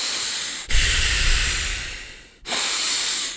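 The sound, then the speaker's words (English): A voice imitates a person's heavy breathing: three long, loud, hissing breaths in steady succession, each a rushing stream of air with short pauses between and no words. “Heavy breathers, people who just breathe heavy.”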